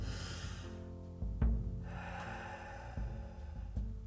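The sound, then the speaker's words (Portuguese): A deep breath drawn in during a guided breathing exercise: soft, airy inhaling with a few sharper snort-like catches, quiet over a faint steady tonal background. “Respire. Respire. Comigo agora, vai. Uma vez, profundo, vai.”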